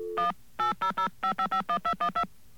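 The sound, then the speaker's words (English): A telephone keypad dials a directory information number in eleven crisp dual-tone beeps, clipped and evenly timed in quick groups, with a short lower tone just before the first. “Now, let's get on the phone here. Oh, beautiful. Got a dial tone right away. You know, in some countries you have to wait a long time for those things. And let's call”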